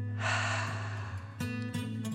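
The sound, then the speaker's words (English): A single deep breath in and out during a children's bedtime relaxation exercise: a loud, airy inhale followed by a softer, breathy release. “Again, deep breath in and breathe out.”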